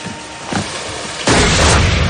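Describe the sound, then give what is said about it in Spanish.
A gunshot is fired at a young woman on a boat deck, a loud sudden blast that bursts in and rolls on as a sustained roaring wash, after a softer thump before it. “Alguien dispara sobre el cuerpo de la joven, que cae batida hacia atrás.”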